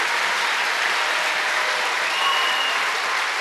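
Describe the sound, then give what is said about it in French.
An audience clapping for the Lord at a thanksgiving church service, steady, dense applause at an even level with no voices over it. “And clap for the Lord.”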